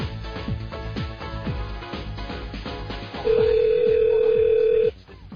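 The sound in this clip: A single steady ringback tone on an outgoing telephone call plays over rhythmic background music. It holds at an even level for about one and a half seconds, then stops.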